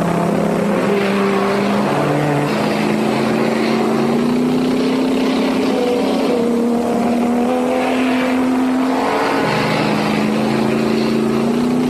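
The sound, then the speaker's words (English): Race car engines roar on a slippery, wet track, a sustained, layered whine that shifts up and down in pitch several times as cars speed by, with no talk. “There goes Hap Sharp by him, and look at Penske put his thumbs up, asking him to go on. Rodriguez is pressing Sharp, though.”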